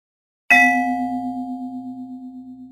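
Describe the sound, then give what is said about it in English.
A single bright chime rings out once with a clear metallic tone and fades slowly over a couple of seconds. It is the page-turn signal for a children's letter book and plays alone, with no voices. “it means you have to turn the page.”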